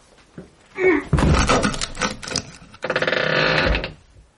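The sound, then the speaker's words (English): A bedroom door being closed: a few dull thumps and clunks, then a longer stretch of rattling, moderately loud and with no talk. “The bedroom door, if you please.”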